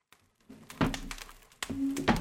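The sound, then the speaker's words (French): A few dull, heavy knocks on a door, each a soft low thud with a faint rumble between them, and no speech. “Un coup frappé à la porte les fait tous sursauter.”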